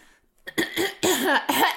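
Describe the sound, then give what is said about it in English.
Harsh coughing from a person who has been ill with fluid in the lungs: a few loud, rough coughs in a quick series after a brief quiet start, with no talk. “Even with the coughing, I swear.”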